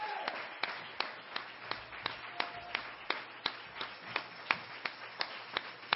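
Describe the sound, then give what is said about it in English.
Christ Family Church audience, celebrating 65 years, claps hands in unison, a faint, steady beat of many sharp claps at an even tempo. “Praise the Lord, church. Put on a hand clap.”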